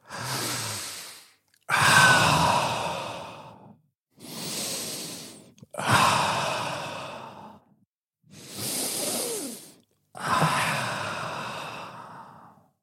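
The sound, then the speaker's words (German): Three slow, deep breaths taken alone in near silence. Each is an audible inhale followed by a longer, sighing exhale, with steady pauses in between. “Atme dreimal tief durch.”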